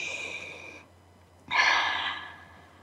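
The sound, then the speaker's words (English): Deep breaths drawn slowly, two soft airy breathing sounds separated by a brief pause, the second one louder and longer than the first. “Let's breathe that in.”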